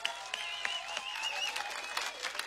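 An audience at a Czech band's concert applauds, dense, steady clapping from many hands that holds at an even level throughout without a clear start or finish.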